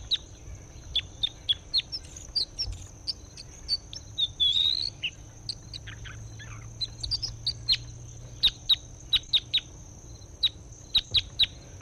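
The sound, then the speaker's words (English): Bird calls, many short, high chirps repeated in quick clusters over a steady, thin high tone. “That was bird M6. Stop. Here's bird M6 again.”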